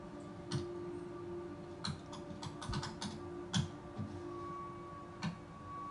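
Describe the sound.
Hard typing on a computer keyboard: a few sharp, irregular key clicks and clacks, loud against a quiet, humming background, with uneven pauses between strokes.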